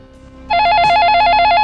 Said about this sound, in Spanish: ¡Ostras! ¿Es una llamada?